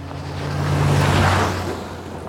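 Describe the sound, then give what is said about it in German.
Large off-road vehicle suddenly driving past, heard as a broad rushing roar that swells to a peak midway and then fades, with a low engine hum underneath that drops away. “Auf ihrem Heimweg fährt plötzlich, wie aus dem Nichts, ein großer Offroader an ihnen vorbei.”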